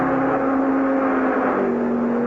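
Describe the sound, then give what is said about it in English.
Cars thunder past on a test track in a loud, continuous engine roar over a strong low drone. The pitch of the drone shifts slightly partway through, and no voices are heard. “the people watching the test winced as the cars thundered by”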